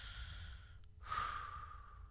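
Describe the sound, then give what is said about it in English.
One deep, soft, airy breath swells near the middle and slowly trails off over a quiet, steady background hum. “And perhaps while looking at the autumn scenery, we can temporarily leave our work-related stresses behind and simply take a deep”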